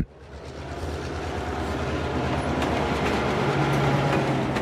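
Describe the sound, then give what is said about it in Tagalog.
A light rail train at a station produces a broad rumbling roar that grows gradually louder and then holds steady, with faint rattling on top. “Huminto na ang LRT sa Abad Santos Station. Bumukas ang pintuan ng mga bagon”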